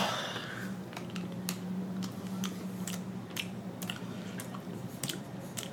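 Someone chews a piece of dark chocolate, with many soft, moist crunching and squishing bites in a loose, uneven rhythm. No one speaks.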